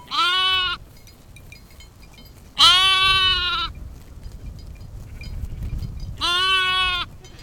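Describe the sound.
Sheep and lambs bleating in a flock grazing near villages around Christmas: three loud, wavering harmonic bleats separated by pauses, over a low, steady background rumble.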